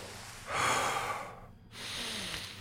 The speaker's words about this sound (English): Just breathe a couple times.